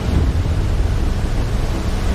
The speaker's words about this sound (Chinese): 这是其他海上装备监视器中拍到的画面。十二级风暴已经足够掀起滔天巨浪，平台在风浪中上下起伏，